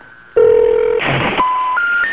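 Keypad tones sound as a telephone number is dialed, a quick series of loud, clean beeps at shifting pitches with a brief noisy burst among them.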